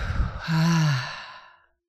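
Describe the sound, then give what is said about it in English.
A single deep breath, drawn in and released as a low, voiced sigh that trails off into silence, heard alone. “So take a deep breath right now.”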